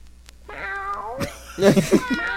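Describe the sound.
A cat meows: one drawn-out, wavering meow, then a few louder, sharper yowls in quick succession.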